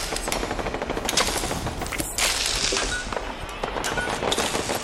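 Automatic gunfire rattles through a video game battle against raiders and a super mutant, with dense, loud bursts of rapid shots filling nearly five seconds with little letup.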